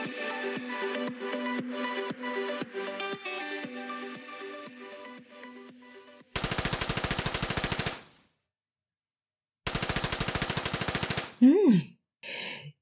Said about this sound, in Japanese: 銃の音です。銃です。うるさいですね。そうです。テレビゲームです。